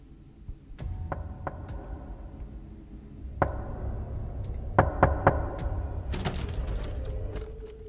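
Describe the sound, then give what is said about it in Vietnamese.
Knocking on an outer door: several sharp, hollow raps arrive in small irregular clusters over a steady low background hiss, with a quick burst of knocks near the end. “Thì đúng thật là tiếng gõ cửa.”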